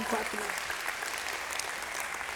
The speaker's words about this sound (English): You can clap for them. They do a great job.